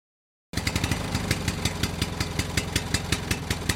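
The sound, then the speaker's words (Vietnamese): A motorcycle engine idling, parked in a yard, with a fast, even putter of regular pulses that begins abruptly after a moment of silence and holds steady throughout. “Đang nấu cơm dưới bếp thì Hoa chợt dừng lại khi nghe tiếng xe máy đậu ở ngoài sân.”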